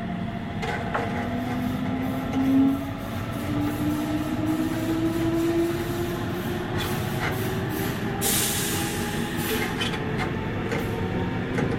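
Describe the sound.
A train departs, with a loud, continuous rolling rumble. A tonal whine climbs steadily in pitch as it pulls away, and a short hissing burst comes late on. No one speaks.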